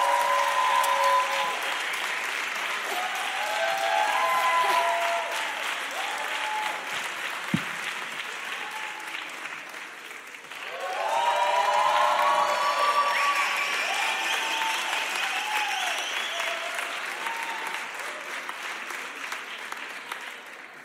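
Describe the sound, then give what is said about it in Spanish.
Audience applause at a live music performance: dense, steady clapping that runs about twenty seconds, dipping slightly before swelling loud again midway and holding to the end. “Un aplauso para ustedes por bancar a la música de acá.”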